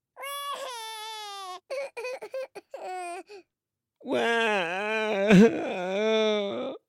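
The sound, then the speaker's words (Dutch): A young child cries in long, high, wavering wails, broken in the middle by a run of short choked sobs before a loud, sustained wail returns. “zegt Peppa: George, meneer Dinosaurus is kapot gegaan. George is erg van streek. Mama en papa Big komen kijken waarom George huilt.”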